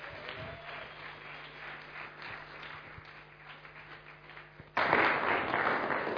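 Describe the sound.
Audience applause welcoming a speaker to the stage at an evening gathering in South Perth. A low steady hum with faint noise gives way to a sudden, loud burst of broad clapping near the end.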